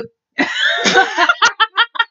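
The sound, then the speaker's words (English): A burp after drinking apple juice: a loud, drawn-out voiced belch, then several short rhythmic vocal bursts. “I burped. I told you. The apple juice is making me burpy.”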